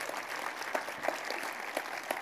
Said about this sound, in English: If you were a part of Fresh Fire Youth Ministry, could you give all these guys a great big hand and a great big welcome?